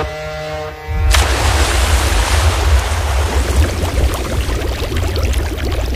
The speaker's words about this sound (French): Là, on est sous l'eau.